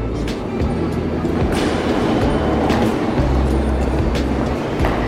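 A line B RER commuter train runs through the Les Halles underground station, a steady loud low rumble overlaid with clattering wheel noise and scattered metallic clicks throughout.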